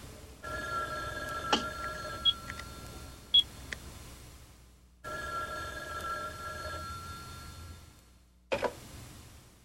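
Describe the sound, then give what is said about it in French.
A telephone rings in two long, steady tonal bursts separated by a brief gap, with a few sharp clicks layered over the ringing. “Ne décroche qu'à la troisième sonnerie.”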